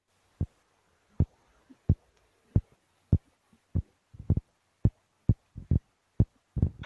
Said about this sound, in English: burbot are really cool. They actually make noises. They've discovered that through the science. I can play the noises here.